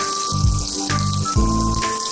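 Minced garlic, small chilies and scallion pieces stir-fry in hot oil, giving a dense, loud crackling sizzle that runs steadily throughout with slight surges. No voices.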